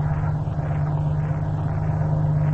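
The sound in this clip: Steady low engine drone of a car pulling into a driveway, a continuous rumble with a slow wavering in the upper hiss and no voices.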